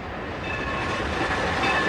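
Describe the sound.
A metro train runs toward Floresta station with a loud, continuous rumble and rail noise that builds slightly toward the end.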